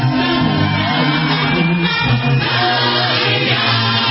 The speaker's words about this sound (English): please, ladies and gentlemen, put your hands together and help me welcome Noah James.